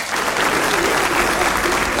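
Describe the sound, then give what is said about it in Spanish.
Audience applauding a performer, a loud, dense and sustained burst of clapping from many hands that holds at full strength throughout. “Un aplauso grandote para el Marco.”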